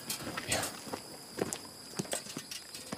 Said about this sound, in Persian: سیاوش از اسب پیاده میشه.